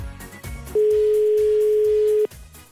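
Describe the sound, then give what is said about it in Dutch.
A steady, single-pitched telephone dial tone sounds while a call is being placed, holding for about a second and a half over a rhythmic background sound before cutting off. “Nou ja, we gaan hem eventjes bellen.”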